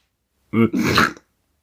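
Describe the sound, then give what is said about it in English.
A person imitates a dog's reverse sneeze with a short snorting burst, then a longer, rough, raspy snort, heard alone. “But they said, because the vet told them a reverse sneeze. What does that mean? I'm going to try to do one right now.”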